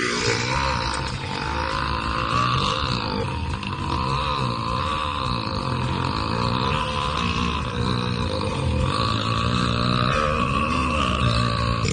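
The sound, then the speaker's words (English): One very long burp: a deep, rough, growling belch that stays loud and unbroken for the whole stretch, with no pause or breath. “How does a guy or a girl burp that long?”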